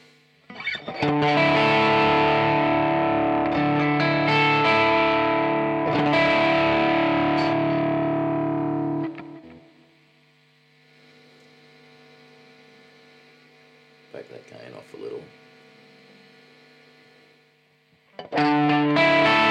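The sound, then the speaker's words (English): Distorted electric guitar played through a Kemper profile of a Marshall amp with delay: a loud chord sustains for several seconds, then fades into a humming echo tail, followed by a few quieter notes and a fresh strike at the end. “one more, the Marshall, number 19 Marshall. What does that sound like with the delay?”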